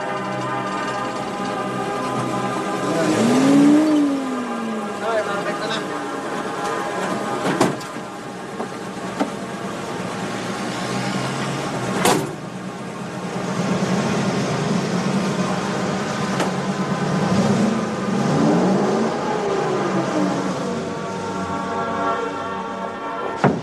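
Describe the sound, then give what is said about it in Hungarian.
A meat delivery truck pulls in: a steady droning engine hum with layered tonal harmonics, a couple of brief swells where the pitch bends up and back down, and a few sharp clicks scattered through the long stretch. “Mehetnének, megint egy húsos kocsi beáll.”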